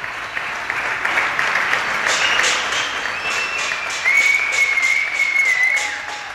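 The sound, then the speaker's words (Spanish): Spaniards applaud healthcare workers from their homes at the set evening hour during the 2020 coronavirus crisis. A steady wash of many clapping hands carries on throughout, and a sustained high whistle-like tone joins in during the second half. “sigue sonando cada tarde a esta hora los aplausos de los españoles a todo el personal sanitario que en condiciones dificilísimas batallan en primera línea contra el virus.”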